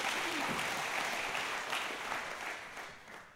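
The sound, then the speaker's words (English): Applause from a church audience welcoming two women to the stage, thick and continuous clapping that eases slightly toward the end. “You guys put your hands together and welcome these ladies to the stage.”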